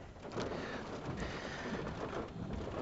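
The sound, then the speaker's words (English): Heavy rain pounds down in a steady, dense roar that holds at an even level for the whole few seconds, with no voices over it. “as the rain is pounding yet again”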